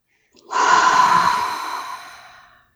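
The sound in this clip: A single deep breath, drawn in and let out as one long, breathy rush of air that swells quickly, then fades slowly away, heard alone without talk.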